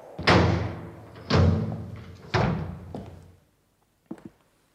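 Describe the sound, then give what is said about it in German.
A door is being closed in a radio drama studio scene, heard as three heavy, booming thuds spaced about a second apart, each decaying slowly. A quiet double knock follows after a short silence. “erst wollen wir doch mal die Tür schließen.”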